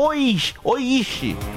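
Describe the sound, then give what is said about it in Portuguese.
A person imitates a cow's moo with three drawn-out, wavering vocal calls, each swooping in pitch, loud and close, with short breaks between them. “Mande aqui o seu mugido especial para aquela pessoa especial.”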